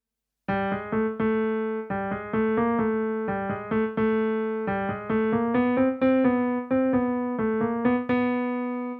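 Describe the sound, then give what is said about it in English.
Solo piano plays a melody first heard on trombone, moderately loud and alone; many short, detached notes fall into repeating groups of three over a steady pulse. “For example, let's examine the trombone melody we just heard. Here it is played on the piano.”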